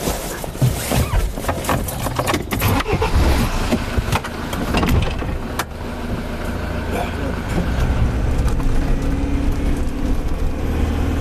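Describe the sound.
Engine rumble of a rugged 4x4 off-road vehicle climbing uphill, a loud, continuous drone with rattling and jolting that runs steadily throughout.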